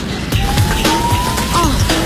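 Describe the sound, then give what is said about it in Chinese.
A taxi suddenly accelerating, its engine whine climbing steadily in pitch over loud, rough road noise. “师傅以为吴倩赶时间，突然加速，徐朗摔倒在地。”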